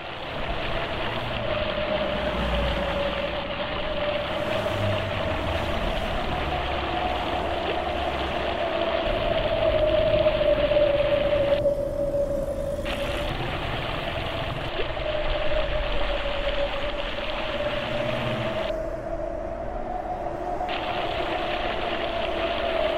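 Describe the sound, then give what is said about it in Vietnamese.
Night-time road traffic noise, a continuous droning rumble of engines with a steady mid-pitched hum that swells and eases slightly, holding an even loudness throughout with no voices. “âm vang xe cộ ồn ào trên đường lộ, trong đêm tối đầy lạnh lẽo”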